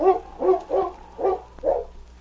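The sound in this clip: Dog barks, about five short harmonic barks in a steady, evenly spaced rhythm, fairly loud and alone with no talk.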